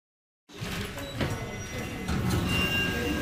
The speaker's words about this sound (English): Into the elevator.